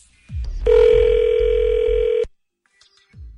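A telephone ring tone as a call is transferred to voicemail: one long, loud, steady electronic tone with bright harmonics, lasting under two seconds, bracketed by low soft thumps.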